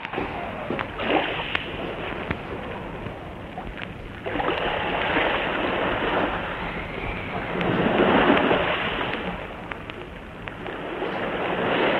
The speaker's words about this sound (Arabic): ايه العاصفة؟ يا ساتر يا ساتر يا رب. انت بتعمل ايه؟ بنزل الملح، البحر قام، البحر قام.